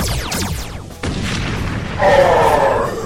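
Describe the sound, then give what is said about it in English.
Toy blasters fire a rapid series of zapping laser-like sounds that sweep downward in pitch, followed by a sharp burst and then a louder, crackling, noisy blast toward the end. “Blade Blaster, ready. Rescue Blaster, ready. Fire!”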